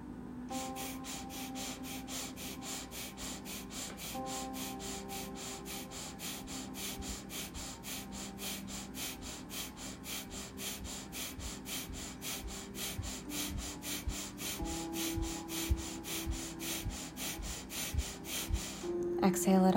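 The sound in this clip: Deep belly breathing during a guided breathing exercise: many quick, evenly spaced inhale-exhale pulses in a steady rhythm over a faint sustained tonal background, growing slightly louder toward the end.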